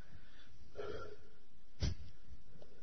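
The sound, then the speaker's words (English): A deep breath taken before telling a story: a soft airy intake followed by a brief, sharp, snort-like burst of breath, faint and alone against a quiet background. “So let me take another deep breath here.”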